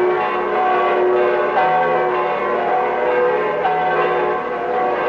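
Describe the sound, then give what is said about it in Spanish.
Church bells peal over a large plaza as a ceremony begins, a loud and continuous wash of overlapping ringing tones that blend together without distinct separate strikes throughout. “Las campanas comienzan a repicar.”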